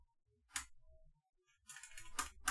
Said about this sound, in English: No, just remembering what order the letters go in when I'm typing really fast.